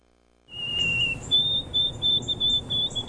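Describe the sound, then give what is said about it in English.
A white-throated sparrow sings alone, a clear high whistled song: one sustained pure note, then a row of slightly higher repeated whistles in an even rhythm, over a low ambient rumble. “Wondering what's singing in your backyard? That's the song of the white-throated sparrow.”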